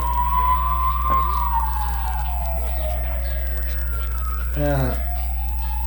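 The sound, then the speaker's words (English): An ambulance siren passing by gives one long wail that slides slowly downward in pitch over several seconds, then starts to climb again near the end, above a constant low rumble. “Here comes the ambulance.”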